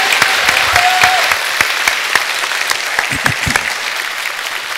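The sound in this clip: Applause from a church audience welcoming a guest speaker: steady, dense clapping that runs throughout at a fairly even level, with a few sharper individual claps standing out.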